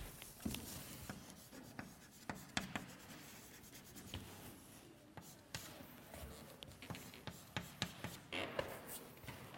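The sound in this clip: Handwriting on a surface while adding a comma during a worked math derivation, faint and alone: many irregular soft scratches and sharp little taps scattered across several seconds with quiet gaps between strokes.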